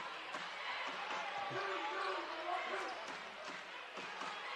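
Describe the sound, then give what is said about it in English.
A basketball bounces during a rough, physical game as Forest Park brings the ball up, the dribbles blurred under steady crowd noise and an announcer's play-by-play. “Here comes Forest Park with a basketball.”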